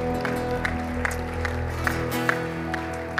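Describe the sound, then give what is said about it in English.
A church audience applauds to welcome visitors at a morning service. Evenly spaced claps sound over sustained tones at a moderate level. “So church, can we put our hands together and welcome our visitors this morning?”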